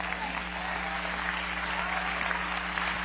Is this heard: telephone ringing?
no